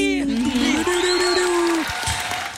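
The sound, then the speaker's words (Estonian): Applause from an audience on an Estonian TV entertainment show: a dense, steady patter of clapping continues throughout, with a drawn-out vocal cheer riding over it. “See aplaus on jälle.”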